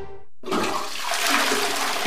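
Toilet flushing with a sudden loud rush of water that keeps churning steadily and surges again at the end.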